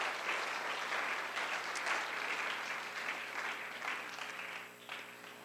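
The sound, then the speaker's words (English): Applause from the audience at a university History Department presentation. A fairly soft, steady wash of many hands clapping continues evenly, then thins slightly near the end. “Let's give both a round of applause for both programs.”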